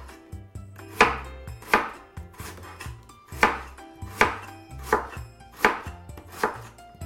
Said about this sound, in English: And I'm just going to go down and make these really thin slices, just like this.